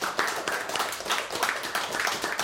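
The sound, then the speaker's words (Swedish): Applause for a piece of music: many hands clap in a dense, steady crackle that stays at an even, moderate level throughout with no clear pauses. “Fint applåd för musiken.”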